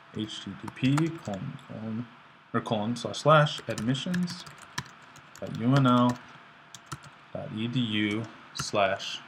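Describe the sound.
Typing on a computer keyboard: faint key clicks run under steady talk throughout.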